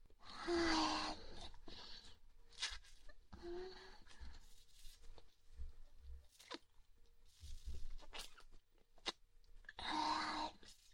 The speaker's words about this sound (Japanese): じゃあ早速いただきます。